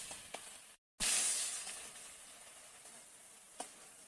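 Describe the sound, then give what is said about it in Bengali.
Ground spice paste meets a hot pan of fried potatoes and sets off a sudden loud sizzle that slowly eases into a steady, fading hiss, with a couple of light utensil clicks. “আলুটা ভাজা ভাজা হয়ে গেছে এবার বেটে রাখা মশলাগুলো দিয়ে দেবো”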